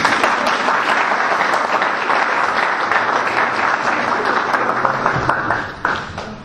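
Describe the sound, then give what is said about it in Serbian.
Audience applause at a press conference for a Belgrade basketball tournament: steady, dense clapping from a crowd holds for about five seconds, then thins and tapers off near the end. “Može aplauz?”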